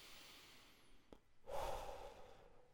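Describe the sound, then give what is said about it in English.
Faint, slow deep breathing, drawn in through the nose and out through the mouth: a soft breath, a brief click, then a longer, louder airy exhale, with no talk. “Let's take a couple of deep breaths. So, let those eyes drift gently closed. Breathe in through your nose and out through your mouth.”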